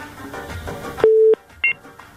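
Telephone line tones as a caller is connected on a radio phone-in: one sustained electronic beep, then a gap and shorter, higher double beeps, clear against near silence.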